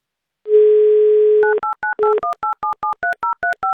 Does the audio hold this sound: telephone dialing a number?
yes